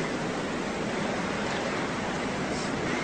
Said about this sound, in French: La mer est montée.